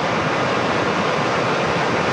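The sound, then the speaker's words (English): Cougar Creek in Canmore raging in flood: a steady, loud roar of rushing water, dense and unbroken throughout, with no other sounds. “Our little creek in Cougar Creek is raging again.”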